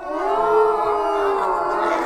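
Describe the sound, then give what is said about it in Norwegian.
A group of people imitate moose calls together as a moose choir, their voices blending into sustained, overlapping low groaning tones that hold steady and loud throughout. “Her har de en elglyd. Og her det som de kalte et elgkor.”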